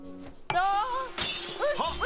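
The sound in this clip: A sharp crash as an object is dropped and shatters, a sudden loud burst, followed by voices exclaiming in alarm.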